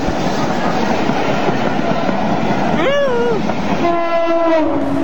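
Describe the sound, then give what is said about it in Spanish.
A fast modern train rushes past with a loud, steady roar. Its horn sounds twice, the first blast wavering and the second held longer. “Miren nada más cómo la veloz locomotora pasa a escasos milímetros del hombre.”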